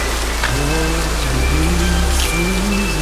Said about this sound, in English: He backs up slowly until he's submersed in the downpour that resembles torrential rain.